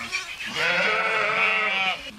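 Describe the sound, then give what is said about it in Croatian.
Romanov sheep and lambs bleating: one long, loud, wavering bleat holds for well over a second. “Ovo su ovdje 2 ovce koje su 4 jagnja, još je takvih. Pa evo vidite, ovdje su 2 ovce po 4 jagnjadi”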